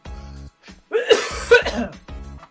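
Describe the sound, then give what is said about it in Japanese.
A man coughing and choking, harsh sputtering bursts in the middle with two sharp peaks, set between short stretches of his talk before and after. “もうむせる。ちょっとむせていいよ俺。”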